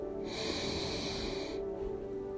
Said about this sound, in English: Breathe it in with a deep breath.